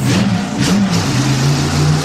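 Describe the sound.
A motorcycle engine revs as riders set off, a loud, continuous mid-pitched drone whose pitch wavers and lifts slightly before holding steady.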